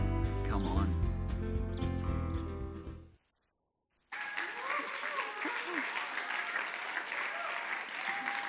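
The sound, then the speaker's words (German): A church audience applauds to welcome a guest on stage. Music plays first, then cuts to a moment of silence before sustained, full applause with crowd voices breaks out and carries on to the end. “Church, lasst uns dem, ähm, George einen Riesenapplaus geben und ihn herzlich willkommen heißen in unserer Kirche.”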